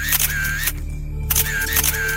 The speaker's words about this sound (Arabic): طلعي لي الكاميرا اللي معاكي وصوري التوابيت دي أول بأول، خلينا نتصورها دلوقتي وهي مقفولة قبل ما نفتح.